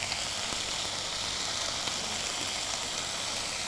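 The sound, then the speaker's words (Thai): Steady sizzling hiss of clear noodles stir-fried with blanched straw mushrooms, light soy sauce and oyster sauce. It is continuous and even, with no pauses and no voices. “เราผัดคลุกเคล้าให้ทั่วพอส่วนผสมเข้ากันกับเส้นดีแล้วนะคะ”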